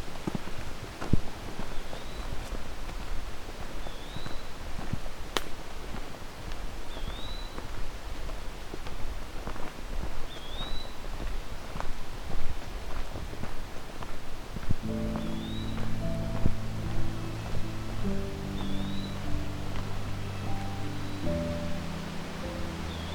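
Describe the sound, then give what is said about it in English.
Eastern wood-pewee singing in the distance in a mature forest: faint, thin, slurred whistled phrases repeat every few seconds, about six times, over steady wind noise and rustling. “There's our eastern woodpewee.”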